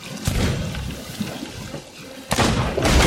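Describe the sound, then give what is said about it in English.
Gunfire in a first-person shooter video game: a few sharp, loud blasts break through a continuous bed of game noise, one near the start and two close together near the end. “I just got shot in the head, dude, and just hit the deck hard.”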